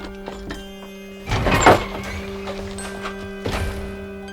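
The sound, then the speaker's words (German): A heavy trapdoor locked with a thick padlock is forced open, giving dull thuds and scraping knocks. Two louder bangs stand out among a few lighter taps, all over a steady low hum. “Und darunter befand sich tatsächlich eine mit einem dicken Vorhängeschloss verschlossene Klappe. Es kostete den dritten Detektiv alle Kraft, sie zu öffnen.”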